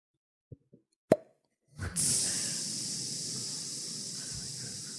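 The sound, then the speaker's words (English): A voice imitates a snake biting a bike tire: two faint pops and a sharper pop, then a brief pause and a long, steady hiss of escaping air that runs to the end. “I think the opening scene of Hiss will be a snake biting a bike tire.”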